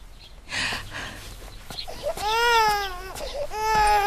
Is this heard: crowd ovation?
no